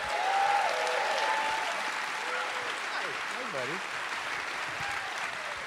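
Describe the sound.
A live audience applauds as a guest drummer comes on stage at a comedy show taping. Steady clapping starts strong, eases slightly, and continues while people talk over it.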